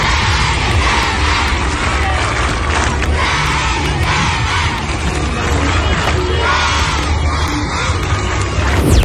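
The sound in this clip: Children at Leskovac primary school give a welcome with loud, continuous cheering and shouting from a big crowd of young voices that holds steady throughout.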